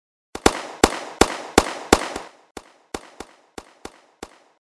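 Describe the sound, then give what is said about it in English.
Rifle gunfire on a shooting range: many sharp, loud shots in rapid succession, each with a short decaying tail. The shots come at a steady pace and grow slightly quieter toward the end, with no talking. “Secure one magazine, 5 rounds each. Lock and load. Fire, watch your lane.”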